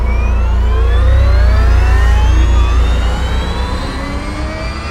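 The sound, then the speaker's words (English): A starship freighter's drive core spins up for an emergency launch, a loud continuous deep rumble with layered whining tones that glide steadily upward throughout. “The Centurion freighter's drive core was spinning up for emergency launch procedures.”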